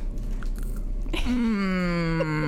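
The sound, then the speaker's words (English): Someone bites into chocolate-covered orange peel, making a single crisp crunch partway through. A sustained voiced tone follows and slowly drops in pitch. “I just took a bite of orange peel covered in chocolate.”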